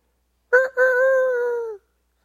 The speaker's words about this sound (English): the rooster crowed